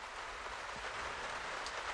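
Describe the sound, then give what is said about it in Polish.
Rain falling as a faint, even hiss that stays steady throughout, with no voices. “Deszcz.”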